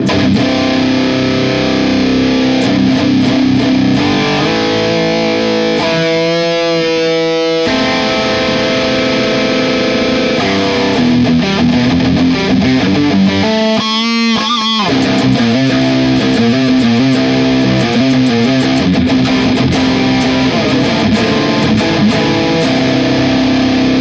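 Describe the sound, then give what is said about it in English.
Distorted electric guitar played through a blended Boss IR-200 and Neural DSP Archetype, loud heavy riffing throughout, with sustained crunchy chords broken by tight, rhythmic palm-muted chugging passages. “Blend the Boss IR 200 and the Neural DSP Archetype of Bossy together, it sounds like this.”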